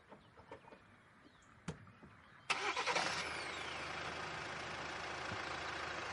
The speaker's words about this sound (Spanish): El monovolumen acelera.